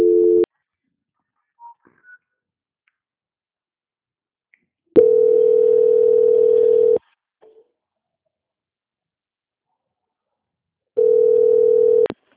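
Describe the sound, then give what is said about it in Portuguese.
Dial tone on a phone line while a call is being transferred: three separate stretches of a steady, even-pitched hum broken by silence, with a few faint clicks between them and no voices. “Espera aí que a ligação voltou, tá bom? Vou transferir de novo. Transferência.”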